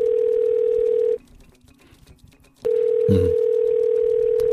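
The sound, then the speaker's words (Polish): Telephone dial tone while a phone call is being placed: a steady, loud, single-pitched hum that cuts out for about a second and a half and then returns unchanged. A brief low thump sounds soon after it resumes. “No ale zadzwonimy do Macieja, momencik.”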